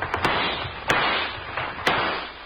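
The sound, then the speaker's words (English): Gunshots fired to shoot out a lamp: sharp cracks in a quick double, then two more spaced shots over a constant noisy hiss. “Come on, shoot up the lamp.”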